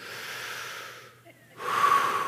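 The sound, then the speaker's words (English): An audience inhales deeply together at a talk, a broad airy rush of many breaths that dips into a short lull, then swells into a louder, fuller intake. “I'm taking oxygen into my lungs. And she would say, yes, you're breathing”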